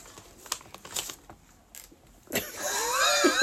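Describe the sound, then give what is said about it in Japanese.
A potato chip bag being opened: a few faint clicks and rustles first, then a loud, continuous, crinkly crackle of the plastic bag. “今ポテトチップスを開けた袋の音が多少したと思うんですけど”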